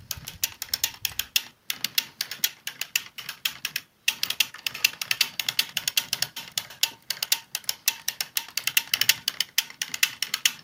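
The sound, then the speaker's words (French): A sock knitting machine running, with rapid, rhythmic ratcheting clicks that repeat evenly. The clicking breaks off briefly twice near the start, then carries on steadily without voices. “Le doux son de ma machine à tricoter les chaussettes.”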